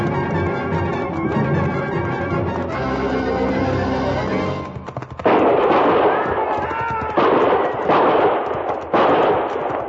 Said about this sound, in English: I knew from the sound of that first volley what had happened.